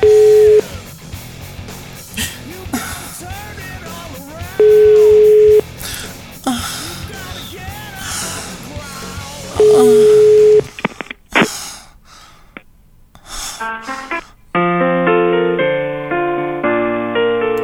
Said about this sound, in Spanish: Desvió la llamada, desvió la llamada. Voy otra vez, voy otra vez.